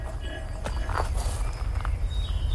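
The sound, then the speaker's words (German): Slow footsteps walk along two rows of graves in a village cemetery in a radio play, with a few soft, uneven steps over a steady low rumble. “Langsam schritt Wank die 2 Gräberreihen ab.”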